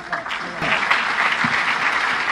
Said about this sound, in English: Give Gary a round of applause, everybody.